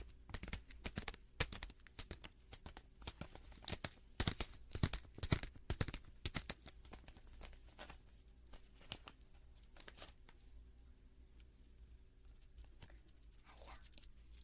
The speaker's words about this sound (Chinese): 这个包装拆开，跳跳糖的包装，然后吃它了